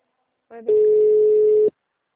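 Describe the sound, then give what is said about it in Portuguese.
A telephone call rings with no answer: a single steady electronic tone holds for about a second after a brief, softer onset, with no voices. “E você tentou ligar, né? Não atende.”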